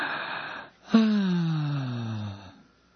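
A deep breath opens with a sharp, gasping intake, then a long voiced exhale whose pitch slides steadily downward before it fades out. It is heard alone, with no talking.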